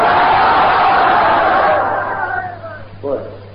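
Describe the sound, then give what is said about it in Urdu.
Crowd shouting the Takbir slogan in unison at a religious gathering, a loud, dense roar of many voices that holds strongly and then fades away over the last seconds. “نعرہ تکبیر”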